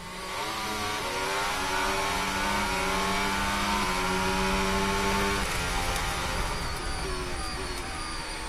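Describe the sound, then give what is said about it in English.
Racing cars roar side by side through an overtake, a loud, continuous high-pitched engine whine with dense harmonics that holds throughout and shifts in pitch partway through. “this is the overtake that we did miss on the world feed”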